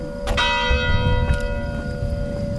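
A church bell rings near a chalet facing a field, with a few clanging strikes and a long, sustained metallic hum between them. It sounds alone, with no voices.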